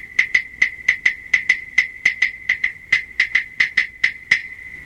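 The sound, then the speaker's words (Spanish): Wooden claves struck together in a steady, even beat: many sharp, pitched, hollow clicks at a brisk regular pace, each decaying quickly, with no voices. “Así suenan las claves.”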